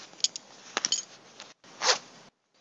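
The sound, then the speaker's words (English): Belt and zipper rustle of a man taking off his pants: a few quick scratchy rasps and clicks, then a brief pause and one longer, louder zip, followed by silence. “Okay, what does it sound like when a man takes off his pants? Let's find out.”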